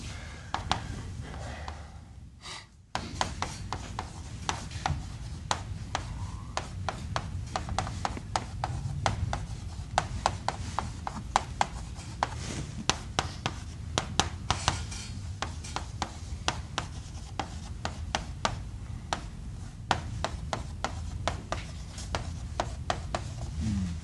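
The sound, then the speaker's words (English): Handwriting in steady bursts: many quick scratchy pen strokes and soft taps run continuously after a brief quiet moment near the start, with no voices. “Let me write that out another way for you guys.”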